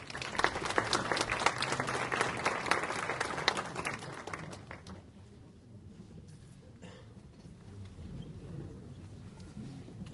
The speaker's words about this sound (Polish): Zapraszam. Duże brawa.